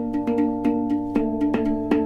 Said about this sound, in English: So the percussive sound you're hearing is the hand actually hitting the drum.